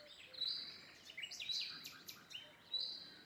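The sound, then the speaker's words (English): Forest birds call in quick bursts, a faint run of high chirps and short sharp notes that cluster closely together, with a brief pause before a final call. “Birds begin to fly and squawk in fear and fly away overhead”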